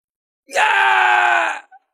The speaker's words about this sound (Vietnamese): Những tiếng kêu thảm thiết vang lên đầy đột ngột.